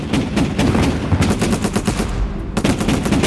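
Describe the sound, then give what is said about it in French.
Machine-gun fire in urban combat as Serbian guns fire from buildings under shelling by French tanks: loud, continuous rapid bursts of shots that barely pause across the whole stretch, with no voices. “Dehors, les chars français continuent de pilonner les immeubles d'où viennent les tirs des mitrailleuses serbes.”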